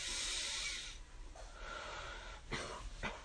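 Deep, breathy inhales and exhales come from a person during guided exercise in a therapy session, heard as a long hissing rush of air followed by two sharper breaths near the end.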